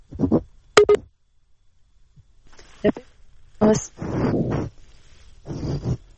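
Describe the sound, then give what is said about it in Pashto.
A brief telephone tone marks a call-in line being cut off: a short sharp beep near the start, then people talking afterward. “زه فکر کوم د ټلیفون کرښه کته شوله.”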